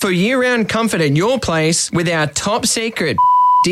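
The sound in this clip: A censor bleep covers a word in an air conditioner advertisement: one steady, high, pure tone lasting about half a second. It cuts in sharply right after continuous talk and is as loud as the voice.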